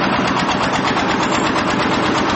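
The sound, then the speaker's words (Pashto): Steady engine drone of a machine lifting bricks at a building site where a four-storey commercial market is going up in cold weather, a continuous mid-pitched mechanical rumble with no talk. “دلته کارګر په سړې هوا کې په کار کولو لګیا دي، ځینې بیا د ماشین په وسیله لوړ پورته خښتې پورته کوي.”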